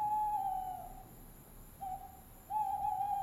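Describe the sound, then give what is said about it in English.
A great horned owl hoots a few times in a forest at night, giving hollow, steady tones against a quiet background. “We hear the hoots of a great horned owl”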